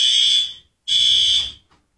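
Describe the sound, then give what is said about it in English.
A fire alarm sounds in a building with two long, shrill, high-pitched blasts separated by a short silent gap, loud and with no voices. “Can you unpull the fire alarm after you pulled it?”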